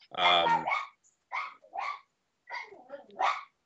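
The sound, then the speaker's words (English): Dogs bark in a quick series of sharp, high-pitched barks and yips, coming in short irregular bursts with brief gaps between them. “Those are my dogs.”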